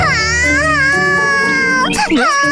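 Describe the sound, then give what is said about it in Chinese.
A cartoon character cries in a high, wailing voice with wavering, sliding pitch, held steadily and loud, then breaks into a few shorter sobbing catches near the end. “秘密鼠，别哭了，我错了还不行吗？”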